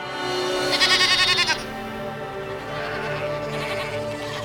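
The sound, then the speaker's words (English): A young goat bleats loudly, one quavering, trembling cry with a fast vibrato that lasts under a second before fading into quieter background. “Then Mikros looked over his shoulder and let out another, louder bleat.”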